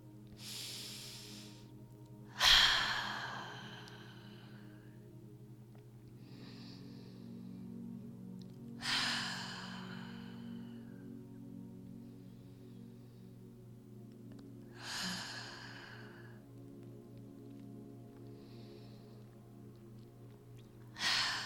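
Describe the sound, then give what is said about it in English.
A person takes slow, deep breaths. Each is a breathy whoosh at evenly spaced intervals, with fainter exhales between and a steady low hum underneath. “So let's go to five deep breaths.”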